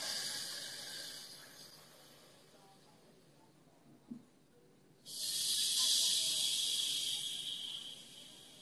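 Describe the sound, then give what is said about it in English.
A slow breath is released on the exhale during a breathing exercise. A soft airy hiss starts it, quiet follows, then a longer, louder breathy rush of air runs to the end. “And then when we exhale, let's also release for a count of 3. Right? So it's going to sound like this.”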